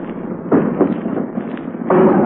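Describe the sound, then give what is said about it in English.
Artillery shell bursts during the Marine landing on the beach at Iwo Jima: a few heavy, booming explosions cut through a constant rumbling background, the last one loud and sustained. “And there we've hit the beach, just simultaneously with that shell burst that you heard, we hit the beach.”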